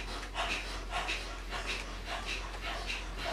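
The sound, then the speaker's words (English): Forceful exhales pushed through the nose in a yoga breathing exercise: a quick, evenly spaced run of sharp, hissing puffs over a steady low hum. “And when you're ready, you're gonna transfer that breath to the nose. Again, focus on that powerful exhale. Let the in-breath just happen.”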